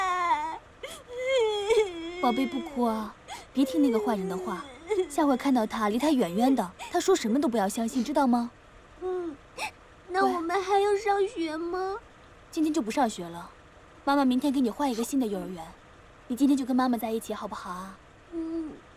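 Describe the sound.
A frightened kindergarten-age child cries in many high, wavering wailing and whimpering bursts separated by short pauses.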